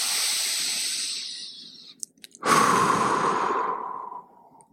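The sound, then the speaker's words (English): Long, slow breathing during a calming relaxation exercise: a sustained, breathy rush of air, a brief pause, then a loud, airy exhale that gradually fades away. “I want you to exhale one last time.”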